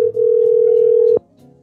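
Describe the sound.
A steady telephone dial tone hums for just over a second before cutting off, heard before a number is dialed.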